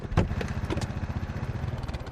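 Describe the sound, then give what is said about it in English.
Police motorcycles pull up behind a parked car with a low, pulsing engine rumble that holds a steady idle rhythm, marked by a couple of brief clatters near the start. “He parks the car, and the two motorcycle cops pull up behind it.”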